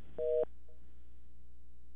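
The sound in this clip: A telephone busy tone sounds after a caller's line drops: one short, steady two-pitch beep, followed by a fainter brief tone and low hum.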